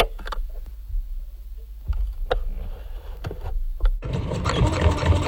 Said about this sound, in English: I so regret making the stupid decision to buy a sewing machine.